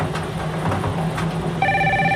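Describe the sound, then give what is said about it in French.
A telephone rings during a bingo game, one bright electronic ring with stacked high tones cutting in sharply near the end over a murmuring background. “le téléphone sonne”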